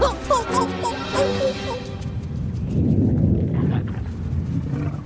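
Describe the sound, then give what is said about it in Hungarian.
Thunder in an animated film scene: a low, rolling rumble swells and lingers after a couple of seconds, preceded by brief tonal, animal-like vocal calls. “Ez egészen biztosan mennydörgés volt.”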